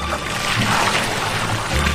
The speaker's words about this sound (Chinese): 精选的糯米浸入清水，浸泡三小时，米粒逐渐吸水膨胀